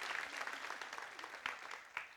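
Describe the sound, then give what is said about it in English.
A church audience applauds with steady, dense clapping that stays fairly faint and even throughout, with a few sharper claps standing out near the end. “Let's thank him and let's give him a round of applause.”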